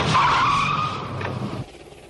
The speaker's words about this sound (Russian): К подъезду подкатила большая черная машина.